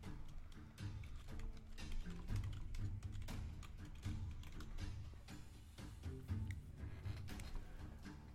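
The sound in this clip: A message is typed on a computer keyboard during a tabletop role-playing game session, with many quick, uneven keystrokes in a steady, fairly quiet stream.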